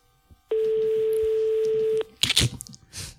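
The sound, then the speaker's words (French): A telephone ringback tone during a call: one steady, even beep lasting about a second and a half, followed by a short burst of clattering noise. “Alors, ça sonne, ça c'est une bonne nouvelle déjà.”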